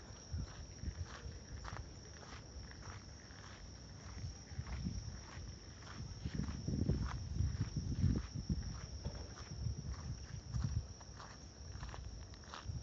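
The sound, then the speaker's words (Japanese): Footsteps walking through Setagaya Park at night: many soft, regular steps in an even rhythm, quiet over a low rumbling background. “ちょっと歩いてみます”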